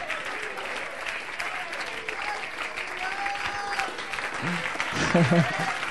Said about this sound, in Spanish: Si le va a aplaudir, apláudale fuerte y dale gloria a Dios.